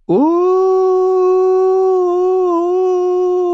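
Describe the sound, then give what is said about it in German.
A boy's voice imitates a wolf's howl: one sustained, high, hollow and slightly quavering "oh" that holds almost level for over three seconds, loud and alone. “»Oh!« heulte er. Es klang albern, hoch und hohl und zitternd, wie das Heulen eines kleinen Jungen und nicht das eines Wolfes.”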